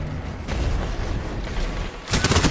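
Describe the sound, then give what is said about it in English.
Pulse rifle fire in Destiny 2: sustained noisy combat sound, then a loud burst of rapid, closely spaced shots near the end. “That pulse rifle's annoying, though.”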